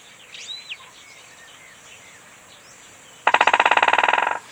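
A bird drums its beak on a tree high up, marking territory: one loud, rapid burst of many strikes near the end, after a few quieter chirping bird calls over a faint steady hiss.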